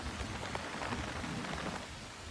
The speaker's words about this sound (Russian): Берлин. Черт. Начало. Проливной дождь. Лоррейн под зонтиком.